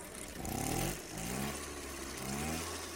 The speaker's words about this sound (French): Mobylette. Direction Vincennes.